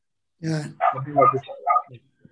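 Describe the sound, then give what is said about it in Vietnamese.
A dog gives a few short, throaty barks and whines in a quick uneven series, the last one tiny and faint. “Chờ để anh chó nó đóng góp vậy.”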